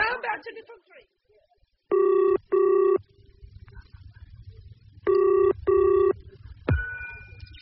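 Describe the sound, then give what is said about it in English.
A telephone rings while someone places a call, after a brief clatter at the start. The ringback sounds as four loud pulses in two paired double-ring bursts with silence between them, and a different tone sounds at the end. “I must make a telephone call.”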